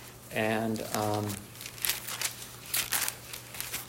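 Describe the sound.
Bible pages being turned, a string of papery rustles and crinkles, sharp and uneven, following a brief spoken phrase.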